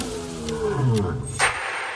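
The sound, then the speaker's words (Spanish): A Bengal tiger roars, a deep, loud growling call with rumbling low tones that swells and then trails off, with no other sounds. “El tigre de Bengala es uno de los felinos más grandes y poderosos del mundo.”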